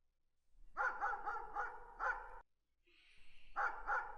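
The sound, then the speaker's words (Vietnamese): A black dog barks loudly outside a door in a rapid run of sharp barks, pauses briefly, then barks again. “Con chó mực sủa inh ỏi ngoài cửa, biết có người đang đến, ông Bảy Cư”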